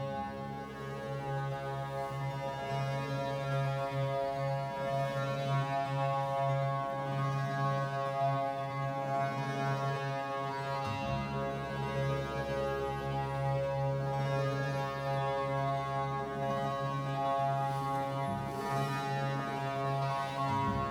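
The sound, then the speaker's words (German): A monochord's many strings tuned to the same note ring together in a steady low drone rich in layered overtones, sustained evenly and loudly with no voices. “Jetzt bei dem Monochord sind es eben ganz viele Saiten, auf jeder Saite circa 20 Saiten. Und durch die vielen Saiten mit dem gleichen Ton verstärkt sich dann der Klang und die Obertöne.”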